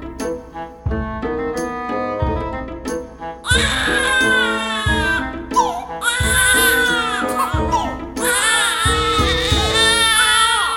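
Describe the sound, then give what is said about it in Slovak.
Royal babies wail loudly in repeated sobbing bursts with tonal, rising and falling cries, over sustained music. “Plač bábetok síce občas znie ako hudba, ale nemal by trvať pridlho.”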